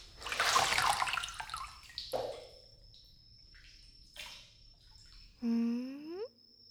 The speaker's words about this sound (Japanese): 湯加減はいかがですか？ 今から体を洗って差し上げますね。